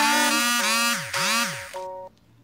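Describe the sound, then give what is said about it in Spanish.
Phone message notification sounds arriving in quick succession: bright electronic chimes overlapping one another, with swooping, bending pitch lines, loud and steady for about two seconds before cutting off to near silence. “Uy, me empezaron a llegar un montón de mensajes, así que vamos a silenciar esto.”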